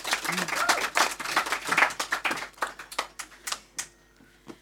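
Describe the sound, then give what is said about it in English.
Audience applause welcomes guests at a literature event: dense, crisp clapping that gradually thins into a few last scattered claps, with voices present. “All right, give a big warm hand for these guys.”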